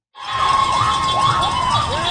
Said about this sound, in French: Devant l'hôpital général de Vancouver, le soutien du public est palpable. Des centaines d'infirmières et infirmiers scandent des slogans sous les klaxons constants des automobilistes.